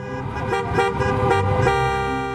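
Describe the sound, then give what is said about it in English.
Car horns honking in a protest traffic jam against stay-at-home orders in Michigan: several sustained, overlapping horn blasts blare continuously with the hum of vehicles beneath. “People have expressed anger at the government, first by creating a giant traffic jam,”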